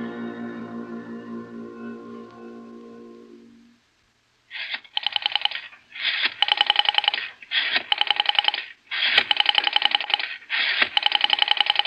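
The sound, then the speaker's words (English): A telephone is dialed, a low sustained tone fading out before a series of six loud, bright buzzing rotary-dial bursts in an irregular rhythm, separated by short silences and faint clicks. “Operator, I've been dialing Murray Hill”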